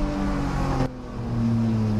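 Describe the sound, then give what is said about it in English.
A Z car's engine drives on a race track, a steady droning tone that dips briefly in loudness partway through and then returns to a full, even roar. “it's a guy driving a Z car. All right, we're watching it now. He's coming up on another guy.”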